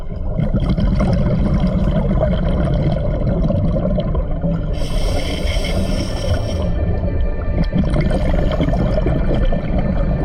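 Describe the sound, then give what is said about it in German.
Rushing, bubbling water as divers plunge into the Aare river and submerge: a dense, steady underwater wash with a brief burst of bright, hissing bubbles midway. “aber kaum plumpsen wir in die Aare, ist all das vergessen. Wir geben einander das Zeichen, okay, alles klar, und tauchen ab.”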